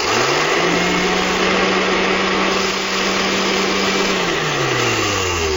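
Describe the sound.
A bingo ball machine whirs as it mixes ping pong balls, its motor hum rising in pitch, holding steady for several seconds, then winding down, all over a loud, constant rushing blower noise.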